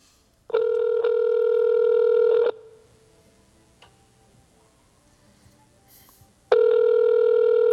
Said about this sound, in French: On va l'appeler. On devrait entendre. On entend un petit peu le téléphone en arrière.